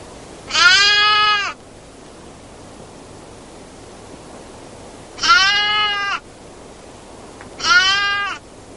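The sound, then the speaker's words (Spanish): Two white lambs bleating alone in a sheepfold at the border: three long, quavering bleats spaced well apart, heard over a steady soft hiss. “Dos corderos blancos quedan solitarios en el aprisco de la raya.”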